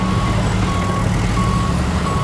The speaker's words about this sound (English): It's quite loud, isn't it? And there's so much going on. I can see vehicles moving about.